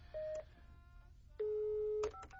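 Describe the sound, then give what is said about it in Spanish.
Telephone dialing tones: two clean, steady touch-tone beeps, a short one followed after a pause by a longer one, over a faint low hum. “voy a marcar a Natalie. 5665.”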